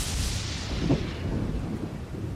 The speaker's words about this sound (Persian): باران می‌بارید.